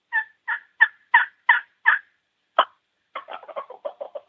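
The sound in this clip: A wild turkey hen yelps in a string of six evenly spaced, raspy two-note calls, then gives a single sharp note. A quicker run of shorter, softer clipped yelps follows.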